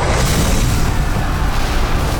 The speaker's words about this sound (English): The tail sparked as it hit the stars, each one exploding as the dragon swept them all up and sent them pummeling down to the earth below.